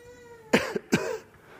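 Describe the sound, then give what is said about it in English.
Several short, harsh coughs come in a quick cluster, fairly loud against a quiet background, with no talk. “Feel a little bit of a cough there.”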